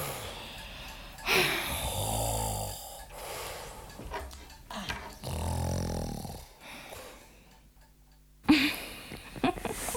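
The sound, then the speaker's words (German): A person snoring while asleep in a radio drama: a few long, rasping, low snores rise and fall with quiet gaps between them, alongside other scattered sounds. “Hey du, wach auf. Hör auf zu schnarchen.”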